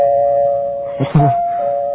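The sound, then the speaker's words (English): A doorbell rings once near the middle with a quick two-note chime. A steady tone sustains before and after it, and nobody speaks. “Wait a minute. I didn't know we had a doorbell. Why don't you go answer that?”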